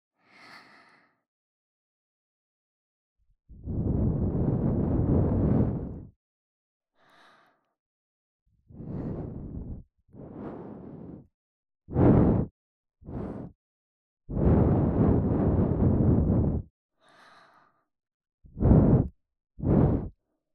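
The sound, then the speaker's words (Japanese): Soft, breathy blowing into the ear comes as eight airy puffs separated by quiet gaps. Some are long and drawn out, others short and sharp, with a few much fainter, softer sounds in between. “同じようにお耳ふうってしちゃいますね。”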